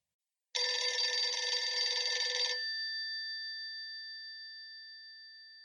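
An old-style telephone bell rings in one bright, jangling burst of about two seconds. It then cuts off, leaving a clear ringing tone that slowly fades into silence.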